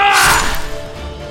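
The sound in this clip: A sword clash from a radio play fight scene: one loud metallic crash at the start that rings on and fades into a thinning shimmer.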